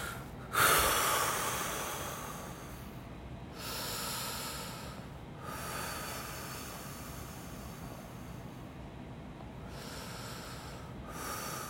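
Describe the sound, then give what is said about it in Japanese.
Deep, slow breathing before a wrist blood pressure monitor reading after a sleepless night: a few long, airy breaths in a steady rhythm, with no talk. “じゃあちょっと測りますねちょっと深呼吸しよう。”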